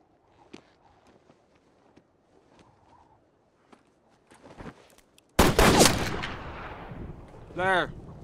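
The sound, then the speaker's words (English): Gunshots from men shooting at cornbread on the prairie: a few faint clicks over near-quiet, then a sudden loud blast that rolls into a long rumbling burst of fire, with a sharp ringing tone near the end. “Gentlemen, shooting cornbread out here on the prairie is getting us no closer to the Ned Pepper gang.”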